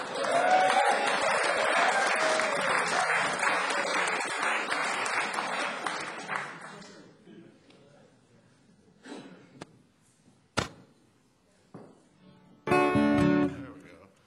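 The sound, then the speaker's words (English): Audience applause greeting a singer onto the stage at a live music show, with dense, loud clapping held for about seven seconds before it thins to scattered claps and small noises. “So ladies and gentlemen, please put your hands together and welcome all the way from Wanamaker, Indiana, via East Nashville, Tennessee, Mr. Otis Gibbs.”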